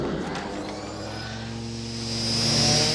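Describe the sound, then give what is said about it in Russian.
A futuristic flying police car departs with a steady engine drone and a thin high whine that swells louder toward the end. “Полицейский автомобиль улетает.”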